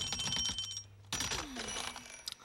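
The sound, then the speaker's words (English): Alarm clock going off on a desk, bright metallic ringing in rapid bursts that breaks off briefly before ringing resumes with a jangling clatter. “The alarm clock goes off on the desk. Sid wakes up as the alarm clock falls off the desktop and onto the floor.”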